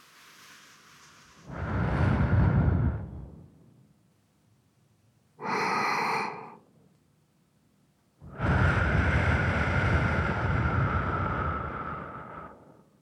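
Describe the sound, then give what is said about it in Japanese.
Soft breathy blowing during an ASMR cleaning of the left ear: three airy gusts separated by near silence, a medium one, a short one, then a long sustained one. “ふっくらした耳たぶをもう一度つかませていただきまして、失礼いたします。”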